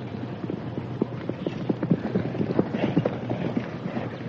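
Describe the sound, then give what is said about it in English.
Hooves of a galloping horse as a rider approaches at speed: many quick, even clip-clop beats in a steady run, with faint wind noise behind. “Somebody's riding hard.”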